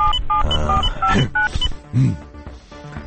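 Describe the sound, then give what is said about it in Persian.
Telephone keypad tones beep out a number in a quick series of short, steady, pitched dual-tone bleeps with small gaps, followed by a few soft thumps and quieter tones. “بذار من این زنگ بزنم به این پسری ببینم ظریف دور برش هنوز. شمارش اینم.”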